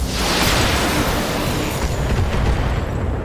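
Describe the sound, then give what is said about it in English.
A big blast from a video game's explosion, a loud, broad rumbling roar that stays at full strength for about three seconds with no voices over it. “Taking the high road. Followed by a big blast.”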